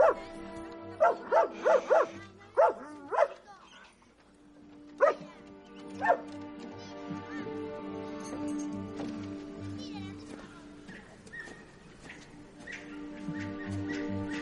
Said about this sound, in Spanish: el perro le ladra repetidas veces mientras se baja de la barca.